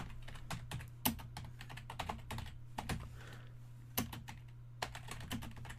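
Typing on a computer keyboard: an irregular run of many quiet key clicks over a low, steady hum.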